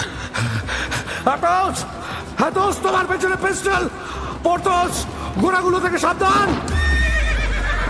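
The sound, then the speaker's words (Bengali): Horses of a runaway, driverless six-horse carriage neigh repeatedly in loud, wavering whinnies over busy hoof clatter, with a deep rumble swelling near the end. “সারথিহীন ঘোড়ার গাড়ি মাতালের মতো টলতে টলতে ছুটছে।”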